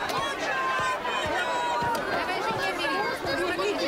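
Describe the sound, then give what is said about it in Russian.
Dense crowd chatter fills a bustling town square where hardware, irons and locks lie spread on cloths on the ground. Many overlapping voices murmur continuously at a steady, fairly loud level, with no single voice standing out. “Оживленная площадь.”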